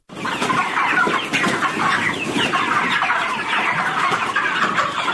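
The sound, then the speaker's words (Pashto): Dense clucking from a flock of about 3,500 broiler chickens on a poultry farm in Kandahar's Dand district, a continuous, loud chorus of overlapping clucks and chirps with no talk. “د کندهار په ډنډ ولسوالۍ کې د چرګانو د فارم کې 3500 ماشيني چرګان ساتل کیږي”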